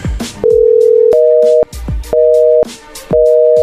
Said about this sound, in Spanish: A ver, márquenle de nuevo.